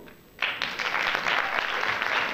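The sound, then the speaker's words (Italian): Audience applause at an evening church diocesan gathering with young people. Steady clapping bursts in after a brief quiet moment and holds at a fairly even level to the end. “Allora stasera facciamo un applauso prima di tutto a Fra Mirko”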